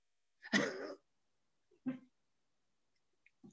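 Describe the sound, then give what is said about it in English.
A dog gives a few short barks amid silence: the first is loudest and longest, and the rest are brief and fainter. “I'm really sorry about my dog.”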